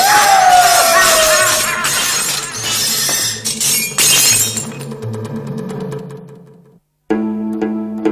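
Glass shatters in a run of loud crashes and tinkling shards over about five seconds, thinning to faint clinks before a brief silence and a different steady sound.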